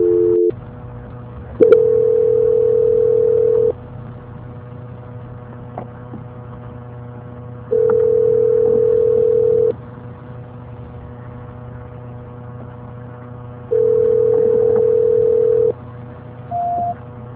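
Telephone line tone during a call transfer: three steady, mid-pitched tones of about two seconds each, evenly spaced over a low constant hum, followed by one short higher beep at the end.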